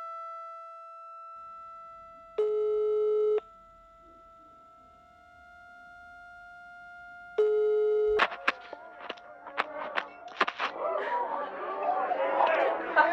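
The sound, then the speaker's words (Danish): Ringback tone of an outgoing telephone call: two ring bursts of about a second each over a steady tonal hum, followed by a jumble of clattering and rustling sounds. “Nu ringer jeg til dig og hører, hvor du bliver af.”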